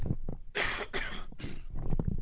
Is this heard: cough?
yes